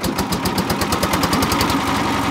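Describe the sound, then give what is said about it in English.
A school boat's diesel engine putters steadily on a river, a loud, even, rapid chugging with regular knocking pulses over a low rumble, running alone without talk. “After the morning classes, the boatman fires up the school's diesel engine. He putters up the river to deliver Neela”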